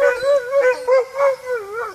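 Sled dogs howling in a long, wavering, high-pitched cry that swells and dips several times in loudness and pitch, with no talk over it.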